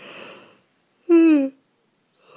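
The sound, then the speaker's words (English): A person yawns: one short voiced yawn with a tone that slides downward, framed by soft breathy sounds and quiet gaps. “Why I'm yawning, I don't know.”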